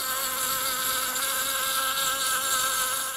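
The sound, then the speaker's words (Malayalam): Honeybee buzzing: a loud, continuous insect drone with a steady pitch and a rich, whining tone that holds unbroken throughout. “ഒരു തേനീച്ചയുടെ മുഴക്കത്തിൽ ഒരു ലോകത്തിൻ്റെ ജീവൻ മറഞ്ഞിരിക്കുന്നു.”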